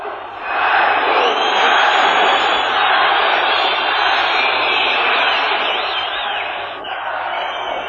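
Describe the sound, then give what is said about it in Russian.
A sports crowd roars in reaction to a goal scored against the famous goalkeeper Maier: a loud, dense, sustained wall of cheering that swells in within the first half-second, holds steady throughout and eases slightly near the end. “Реакция любителей спорта на гол, влетевший в ворота прославленного вратаря Майера.”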